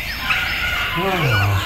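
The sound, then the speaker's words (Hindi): Bird calls in a park at evening: a short burst of throaty, warbling calls, fairly loud, with a low drawn-out tone toward the end. “वो चहचहाते पक्षी”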